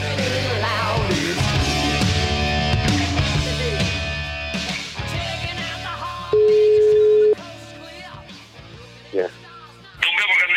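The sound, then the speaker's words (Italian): A telephone call placed live on air rings out as one steady, clear ringing tone lasting about a second, set among dense talk and background sound. “La voce che ha risposto è quella di Lotito. Subito dopo era la telefonata.”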